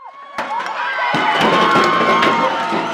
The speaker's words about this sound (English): That's the sound of the pioneer statue being pulled down with ropes from the pedestal where he stood in a central location on campus since 1919.